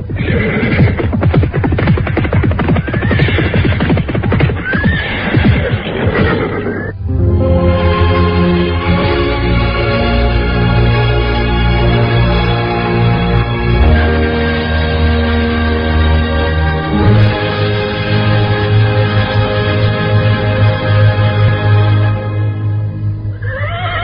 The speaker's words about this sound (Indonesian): terdengar derap orang-orang berkuda naik ke atas lereng